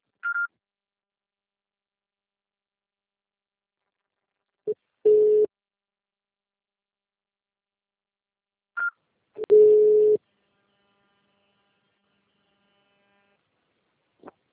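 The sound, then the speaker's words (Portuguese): Voicemail beep tones on a phone line: brief high beeps alternate with longer, steady lower tones in a repeating pattern. Silence separates the tones, and no voices are heard. “Pode deixar seu recado, você só será tarifado após o sinal.”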